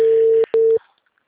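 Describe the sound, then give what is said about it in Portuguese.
Telephone tone as a call is placed: a steady low beep cut by a short gap, resuming briefly and then stopping, with no voices. “O pior é que todos os meus números estão banidos, mas eu tô fazendo ligação aqui.”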